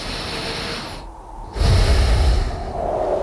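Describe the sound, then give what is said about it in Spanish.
A deep human breath: a soft, airy hiss, a brief near-silent pause, then a louder, sustained rush of air that tapers slightly, heard alone without speech. “voy a respirar para coger fuerzas para mañana”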